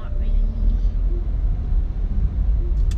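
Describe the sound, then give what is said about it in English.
Car driving, a steady low engine and road rumble that stays continuous and even throughout. “I'm currently driving.”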